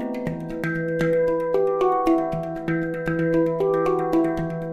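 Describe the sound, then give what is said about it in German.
A hang, a steel handpan, is played with many struck notes in a flowing melodic pattern. Each bright, bell-like tone rings on and overlaps the next, with no voices. “Eine Trommel ist ein Hang also nicht, aber klären wir mal den Namen, denn so richtig bekannt ist das Instrument ja auch immer noch nicht.”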